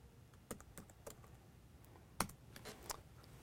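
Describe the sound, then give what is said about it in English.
A password is typed on a computer keyboard, a quick, irregular run of faint clicking keystrokes. “Type in my password again.”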